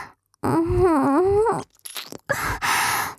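Close mouth sounds of nibbling on an ear: a drawn-out moaning hum, then crunchy, wet chewing and biting noises in two short bursts.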